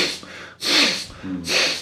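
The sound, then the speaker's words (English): A voice imitates a forceful, angry exhale, with several loud, breathy blasts of air, two of them strongest, separated by brief quieter breath noise and a short voiced sound. “when someone is angry, it's completely the opposite. They breathe out more. It's like”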